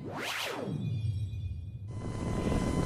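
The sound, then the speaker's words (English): A cargo loader spacecraft landing, heard as a sweeping whoosh that falls in pitch and settles into a low, steady rumble, joined partway through by a sustained electronic hum. “Master Nubar, the cargo loader is landing.”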